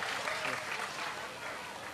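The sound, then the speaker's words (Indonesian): Group applause during a university session: a thick, continuous patter of many hands clapping at a moderate level across the whole short stretch. “Tepuk tangan, tepuk tangan.”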